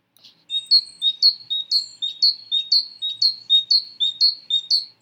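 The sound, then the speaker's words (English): A great tit sings a rapid, steady series of many short, high, two-note phrases. Each repetition is clear and bright, and the bird sings alone against silence. “Listen to this great tit sing.”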